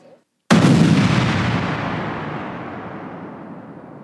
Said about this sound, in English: That was my brain exploding after listening to that.